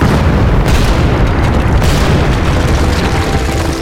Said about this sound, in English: Smoke rigged them with bundles of blasting powder and long fuses. After lighting, he got well clear.